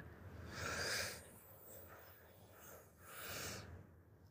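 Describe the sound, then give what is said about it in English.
A deep breath in and out during a guided breathing exercise, heard as two faint, airy swells of breath separated by a quieter pause. “So let's take that final deep breath in.”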